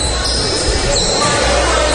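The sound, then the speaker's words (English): Basketball dribbled on the floor of an old, historic high school fieldhouse in Ohio during a game, with repeated bounces blending into steady crowd noise and commentators talking. “And Salina just dribbled the ball out of bounds.”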